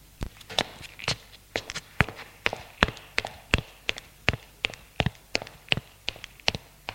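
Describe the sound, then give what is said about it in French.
Footsteps of a man climbing hotel stairs to the first floor, many sharp, evenly paced steps in a steady rhythm with no talk. “Lionel monte au premier étage”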